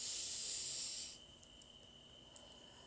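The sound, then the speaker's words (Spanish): A deep breath drawn in through the nose during a guided relaxation exercise: one soft, steady hiss lasting about a second, then stopping into near quiet. “Vamos a tomar unos pequeños respiros. El primero lo vamos a tomar hondo por la nariz.”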